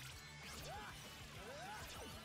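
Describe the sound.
A spin sword attack in a video game: swishing sweeps glide up and down in pitch, mixed with sharp smashing hits, all fairly faint and fast.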